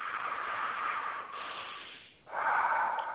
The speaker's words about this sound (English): can you breathe 7 times with me? I will count it.